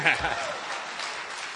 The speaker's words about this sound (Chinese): 可以鼓掌